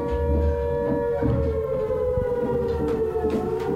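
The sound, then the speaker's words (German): A civil defense siren wails in a steady, sustained tone, its pitch holding nearly level over a low rumble throughout. “Haben Sie die Sirene nicht gehört?”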